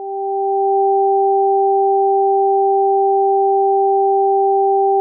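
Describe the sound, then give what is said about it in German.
Two steady sine tones an octave apart, alternating between left and right for a headphone stereo illusion demonstration, sound together as an unbroken, loud, pure hum that fades in briefly at the start. “Zwei Töne im Abstand einer Oktave, abwechselnd links und rechts.”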